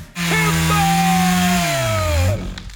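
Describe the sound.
Chainsaw engine droning during tree work such as trimming and removing tall trees, a loud steady buzz that drops in pitch toward the end before cutting off abruptly.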